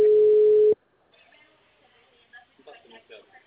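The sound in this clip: A telephone tone marks a dropped call: one loud, steady mid-pitched beep that cuts off abruptly, followed by faint, quiet talk.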